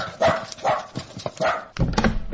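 A dog barks in a quick run of several rough, loud barks with no talk over them.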